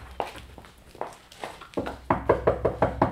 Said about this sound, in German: Wenn sie noch im Bett liegt, klopfen Sie mal an der Tür da.